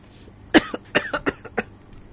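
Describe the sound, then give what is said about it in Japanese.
Coughing after choking on mango juice: a quick burst of several sharp, uneven coughs, the first the loudest, fading out over about a second with no talking. “ちょっとむせちゃったじゃん、もう。”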